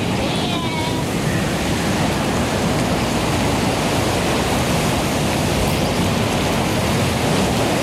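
Sea surf roars along the coast between Collioure and Port-Vendres as a storm front develops, with a loud, dense, unbroken rush of waves throughout.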